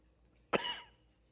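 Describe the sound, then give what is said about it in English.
A single short cough from a man who is fighting a cough during a sermon: one sharp, fairly quiet burst with a brief breathy tail, heard alone against a quiet background. “Pardon me. Still fighting this cough.”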